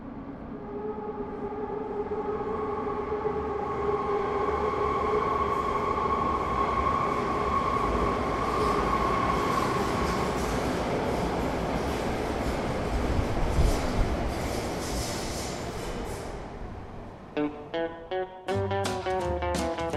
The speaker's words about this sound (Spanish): Y no en balde, pues tiene ese apelativo, por varios motivos, de la estación fantasma de Chamberí. Lo escuchamos.